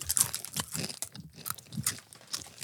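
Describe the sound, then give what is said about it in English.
Loud, crisp crunching and chewing of beet tortilla chips, many brittle bites and grinding chews in an irregular rhythm, close and clear with no talking. “Beet tortilla chips. Do you like these? These tortilla chips look like they're bloody.”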